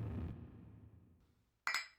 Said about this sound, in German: Anstoßgeräusch so. Von Raphael Breuer eingefügt.